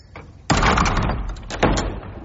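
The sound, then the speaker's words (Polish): A door being shut, with two heavy, sharp thuds a second or so apart, the second followed by a brief rattle and some lingering noise. “Głosy umilkły, kiedy zamknął za sobą drzwi.”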